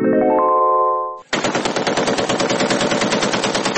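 Rapid automatic gunfire from a rifle forms a dense, loud, continuous rattle of many shots lasting over two seconds. Before it comes a sustained, rising tonal chord that cuts off.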